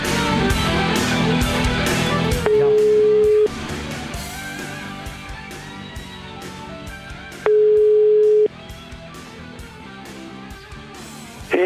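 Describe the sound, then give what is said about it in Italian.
Ringback tone of an outgoing phone call, heard as two one-second tones about five seconds apart, each rising clearly above loud, busy background music. “abbiamo provato a chiamare oggi pomeriggio il signor Giuseppe Bertè.”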